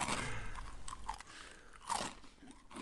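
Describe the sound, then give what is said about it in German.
Dry, brittle crunching as someone chews a dry-baked Chinese fortune cookie, with many sharp crackling bites and grinding chews at a steady, fairly quiet level. “Ich hoffe, das ist ein audiovisuelles Erlebnis, wie ich hier meinen Glückskeks kaue.”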